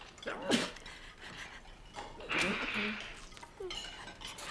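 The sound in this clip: A knife cuts food on a plate at a cafeteria table, giving a few faint, scattered clinks and scrapes of metal on crockery separated by quiet pauses.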